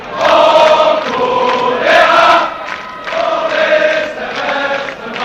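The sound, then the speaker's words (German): Cologne football fans chant in unison, a loud, rhythmic wall of massed voices that surges and dips in repeated phrases. “Die Kölner Fans danken mit Sprechchören.”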